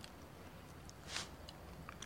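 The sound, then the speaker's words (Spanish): A soft bite into a banana makes one brief, moist crunch midway, with faint chewing clicks around it. The whole clip is very quiet. “Luego muerde la banana que tiene en la izquierda.”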